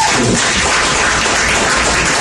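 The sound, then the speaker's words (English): Audience clapping at a comedy show, a loud, dense wash of hands that holds steady without pause. “Clap if you're from the Middle East.”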